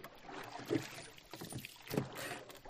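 Splashing oar strokes as a rowboat is pushed off from a landing stage and driven forward with powerful pulls, oars set in oarlocks; two stronger strokes stand out over a steady wash of water and wind noise.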